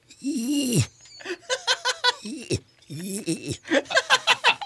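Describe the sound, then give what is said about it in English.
Cat sound effect of a cat with a fur ball stuck in its throat: a long strained yowl, then many short, choppy, hacking vocal bursts in an uneven rhythm, fairly loud throughout. “And that is a cat with a fur ball stuck in his throat.”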